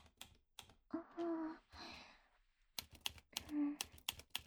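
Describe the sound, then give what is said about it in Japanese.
Typewriter keys clacking on their own with no one at the machine, irregular bursts of sharp clicks separated by pauses, with brief voiced sounds between them. “なんかあれ動いてる？何？タイプライター”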